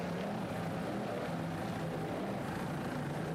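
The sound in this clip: Racing powerboat engine at full power, a dense, rough, continuous drone with broad roaring noise over a low rumble, loud and steady throughout with no pauses or voices.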